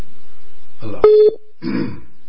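Telephone tones on a phone-in call line: a steady low tone, then a brief bright beep set among crackly line noise.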